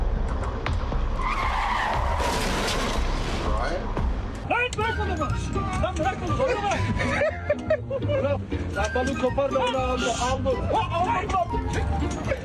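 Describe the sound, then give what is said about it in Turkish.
Tires skidding as a speeding car slides out of control into the fuel pumps at a filling station, a high screeching squeal early on, followed by a dense, busy mix of noise with voices. “son sürat gelen araç kontrolden çıkıp istasyona doğru savruldu. Telefonla bakan adamı sıyırıp geçerken yakıt pompalarına çarptı.”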